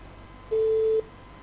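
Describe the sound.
A telephone call connecting: one steady mid-pitched tone about half a second long, alone over faint background hiss.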